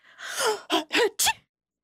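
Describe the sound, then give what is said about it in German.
A voice imitates a strong sneeze: a drawn-out breathy build-up, then three short, sharp voiced bursts that cut off into silence. “erst am nächsten Morgen wachte er durch ein kräftiges Niesen auf.”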